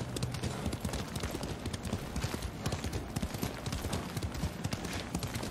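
Horse hooves clip-clop steadily in a video game, a fairly faint, even stream of many quick hoof beats with no voices.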